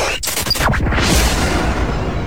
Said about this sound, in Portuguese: Explodiu.